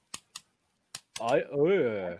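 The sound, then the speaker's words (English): Ratchet joints of a toy action figure click as its shoulders, knees and hips are moved: four sharp, separate clicks in two pairs, then talking takes over. “The ratchets in the shoulders, dude. Ratchets in the knees, ratchets in the hips.”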